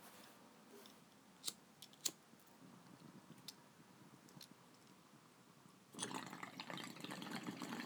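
Water bubbles through a percolated beaker bong with a pre-cooler during a hit. Quiet ticks and clicks come first, then a steady, rushing gurgle rises near the end and keeps going.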